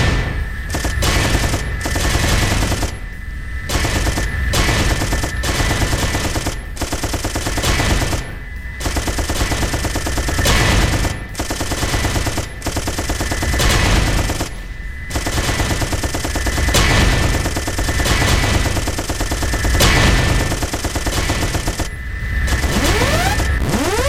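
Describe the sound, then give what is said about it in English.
Rapid gunfire in a video game shoots down incoming rockets: dense, loud automatic firing that rattles on almost continuously, broken only by brief gaps, with a few booms mixed in. “Your final score is 391 points. You're pretty good at shooting the rockets down.”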